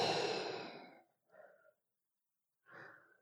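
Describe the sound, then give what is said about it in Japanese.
A slow, deep breath out during a guided relaxation breathing exercise: one long, fairly loud exhale fades over about a second, followed by two shorter, softer breaths separated by silence. “ゆっくり深呼吸してみようか。で、吐いて、”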